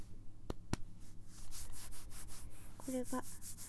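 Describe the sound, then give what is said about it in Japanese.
Thin, sheer black stockings with a tight fit rub against the thighs of someone seated on a bed, giving faint, soft swishing strokes in a loose rhythm after a couple of brief clicks. “これがストッキングの 音やねん。 今 太ももをこすってる。”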